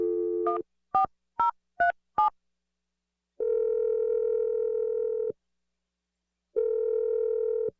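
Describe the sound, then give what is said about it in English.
A landline dial tone cuts off into four short keypad beeps as a number is dialed, followed by two long, steady ringback tones separated by silence. “You ready to make this call? Yeah, I am. I'm dialing the number now.”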